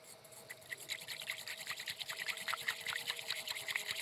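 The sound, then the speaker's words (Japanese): Bamboo whisk frothing matcha tea, moved vertically back and forth in the bowl: a quick, steady rhythm of soft, wet swishing strokes, faint and continuous throughout. “馴染んできましたら、茶筅を縦に動かして泡を立てていき、”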